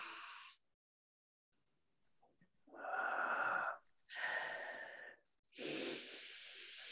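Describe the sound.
Deep breathing during a guided relaxation exercise, with a few soft, airy breaths, each a long hiss of inhaling or slowly exhaling, separated by short silent gaps.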